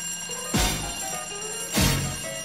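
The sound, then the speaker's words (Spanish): A telephone rings with an incoming call: two loud ringing bursts, about a second apart, over a steady background tone, with no voices. “¡Una llamada!”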